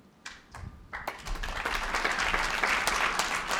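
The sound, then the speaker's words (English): Audience applause at a New Year stage event: a few scattered claps quickly build into dense, steady clapping from a crowd that stays loud to the end. “round of applause, if you would, for my colleague Lauren”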